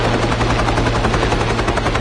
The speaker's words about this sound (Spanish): ¡Están llegando! El helicóptero se acerca al barco.